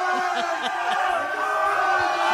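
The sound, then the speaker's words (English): Students and BYU Cougars fans cheer outside an airport at 2:30 a.m. in below-freezing cold as the team returns home, a loud, continuous crowd roar with whoops and shouted voices. “Some Coug fans didn't want to wait till Saturday. The team got home at 2:30 in the morning. It was 20 degrees outside, and this happened.”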